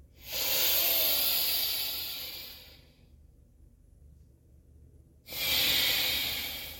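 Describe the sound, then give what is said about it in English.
Breathing in and out through one nostril during alternate nostril breathing: a long, loud airy hiss that slowly fades, a quiet pause, then a second strong nasal hiss starting up. “And then switching. In and out through the other nostril. Switch.”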